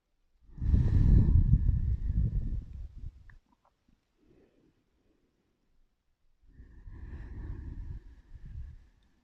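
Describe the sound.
Slow, audible breathing during a yoga forward bend over the left leg: two long, soft breaths with a near-silent pause between them.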